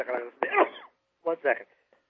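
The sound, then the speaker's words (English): Coughing and throat clearing come in a few short, rough bursts separated by brief pauses. “we're coughing and sneezing and doing all that stuff over here”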